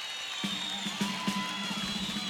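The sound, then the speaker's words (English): A concert crowd screams and cheers, a sustained wash of shrill, wavering voices with a few soft rhythmic thumps underneath. “Get the screaming crowd for another 30 seconds.”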